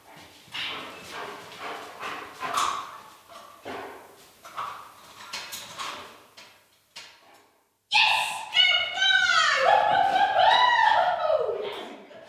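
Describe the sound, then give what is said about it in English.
A cancer-detection dog sniffs its way along six metal sample stands holding saline with human cells, pressing its nose against each metal plate. Quick, breathy sniffing bursts come with short pauses, followed by a louder, busier stretch at the end. “I came back for a quick visit to record some of the sound of the dogs, with the help of Courtney and her assistant Tess, who followed the dogs with a microphone for me. So here is the sound of Levi checking a series of 6 samples.”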